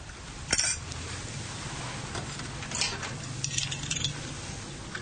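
Faint clinks as a breakfast tray with dishes is set down beside a spread of bread, a teapot, fried eggs, a jam dish, butter and cheese. A few soft, scattered knocks sit over a steady low hum, with no talk.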